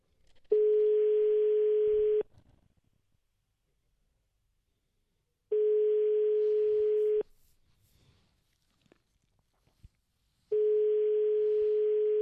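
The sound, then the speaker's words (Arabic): Telephone ringback tone heard while calling a number: three long, steady, mid-pitched tones, each about two seconds, separated by longer silent gaps with faint clicks between them. No one speaks. “والرقم يرن.”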